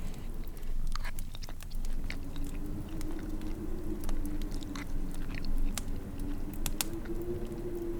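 Chewing and mouth smacking as leftovers from the day before, a dish with egg and tomatoes, are eaten with a spoon: many small, soft crunchy clicks and wet bites over a low steady background.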